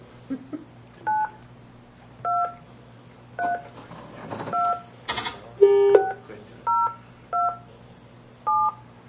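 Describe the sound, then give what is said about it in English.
Cell phone keypad dialing tones: a series of short, evenly spaced two-pitched beeps over a low steady hum, with a brief noisy burst partway through. “You can't just do it, redial on this thing. Well, it's hard enough to dial upside down.”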